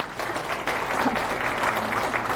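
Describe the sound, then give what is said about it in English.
An audience at a tech talk applauds open-source maintainers, many hands clapping in a thick, continuous patter that swells slightly after the start and stays steady to the end, with no voices on top. “Just huge applause for the maintainers.”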